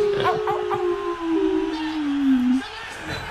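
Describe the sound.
A voice imitates a wolf howl: one long, drawn-out tone that holds steady and then slides lower in pitch before breaking off, fairly loud against faint background sound.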